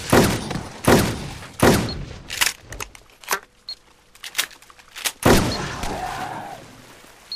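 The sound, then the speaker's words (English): Gunfire in a zombie video game: a series of sharp, loud shots with booming tails, irregularly spaced, with smaller bangs between them and no talk. “Somebody else is shooting. That's good.”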